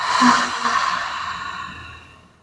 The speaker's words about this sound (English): Let's start with three deep grounding breaths. So inhale, exhale,